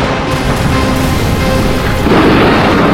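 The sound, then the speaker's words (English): Loud crashing and rumbling as buildings are destroyed, a dense continuous roar of smashing debris that swells and brightens near the end, with no pause. “He's destroying all the buildings! There's no place for us to flee!”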